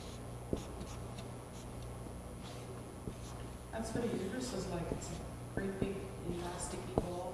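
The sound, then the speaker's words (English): A pen or pencil scratching on paper while someone draws a pregnant woman's belly, making light, quick strokes with a few sharper taps, under a speaking voice and a faint steady hum. “Let's draw Rivka when she was pregnant. Let's see. There's her tummy.”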